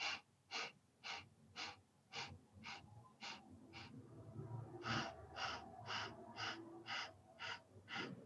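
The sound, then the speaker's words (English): Segmented breathing in eight counts. Eight short, evenly spaced breath pulses are drawn in a steady rhythm, followed by a brief pause and another series of equally clipped pulses. The pulses are faint, breathy and rasping, with no talk. “it can go to really complex where you're inhaling in 8 counts and exhaling in 8 counts, which looks like this.”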